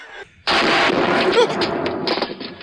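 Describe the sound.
Gunfire from guns shot inside an office: after a short quiet moment, a sudden loud blast is followed by dense, rattling reports and a sustained roar of noise that continues to the end.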